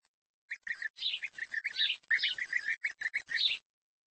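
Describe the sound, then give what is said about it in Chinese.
Bird chicks calling in a busy, rapid stream of thin, high cheeps and chirps, closely packed and overlapping, that run for about three seconds and then stop abruptly. “很难让人相信，眼前这些其貌不扬的雏鸟，有朝一日会变得像他们的父母一样美丽、优雅而又色彩斑斓。”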